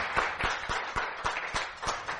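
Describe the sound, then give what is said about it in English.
A church audience claps together in a steady, even rhythm. About eight crisp claps sound over low crowd noise, all fairly faint, with no distinct cheering. “Give the Lord a cheer.”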